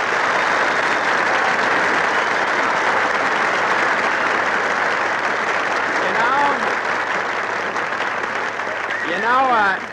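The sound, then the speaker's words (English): Diners at the Brown Derby restaurant in Hollywood applaud to greet Jimmy Stewart. The dense, even applause holds steady throughout, and a few voices rise briefly near the end. “You say, well, if it isn't Jimmy Stewart, and everybody in the Brown Derby applauds.”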